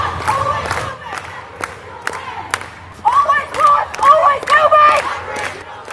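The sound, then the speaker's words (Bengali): A crowd of protesters marching against Australia Day on 26 January chants and shouts over steady, evenly spaced thumping beats. The voices grow louder and more excited in the second half. “মিছিলে সামিল বিক্ষোভকারীরা ২৬ জানুয়ারিতে Australia দিবস পালনের বিপক্ষে”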